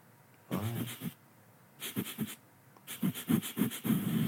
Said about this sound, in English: My heavy breathing.